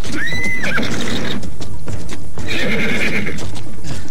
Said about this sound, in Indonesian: sakti yang disebut-sebut sebagai kuda setan di sekitar Bukit Tunggul menginjak-injak ular-ular yang bertebaran.